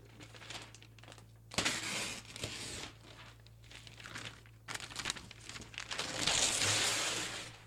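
A package wrapped in duct tape is opened with crinkling and tearing: faint rustling broken by louder bursts of ripping and crumpling, with no voices.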